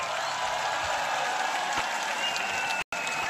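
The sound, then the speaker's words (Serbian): Audience applause at a 2024 concert at Ušće, a steady, dense wash of many hands clapping that holds at an even level until a brief dropout near the end. “I jedan aplauz za Vladu, molim vas.”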